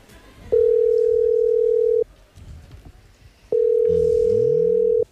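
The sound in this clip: A telephone ringback tone sounds twice as long, steady, single-pitched tones separated by a pause, with quiet voices talking between and under the tones.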